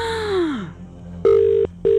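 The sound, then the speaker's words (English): Two steady, buzzy ring tones as a call to a radio phone-in goes unanswered. The ringing comes in loud, even bursts with a short gap between them, and the second burst is cut off at the end. “Oh my God, 6 rings. We're going to have to move along. 7 rings.”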